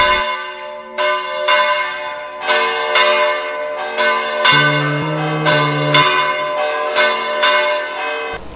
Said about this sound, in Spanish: A veces se utiliza un contrapeso llamado maza para que la campana gire o voltee.